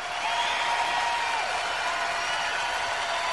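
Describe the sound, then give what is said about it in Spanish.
Audience applause on a live album: a dense, even wash of clapping that holds at a steady level throughout, with no clear breaks or swells. “No, este aplauso no es porque volvemos al aire.”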